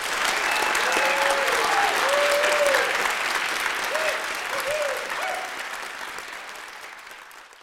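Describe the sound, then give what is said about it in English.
A restless live audience at a science event at the University of Notre Dame fills the room with loud, dense clapping and chatter that slowly fades, while a voice is heard over it. “that restless hubbub you may hear in the background is because this room is full of restless biomass. An audience has come out to the X Center at the University of Notre Dame tonight”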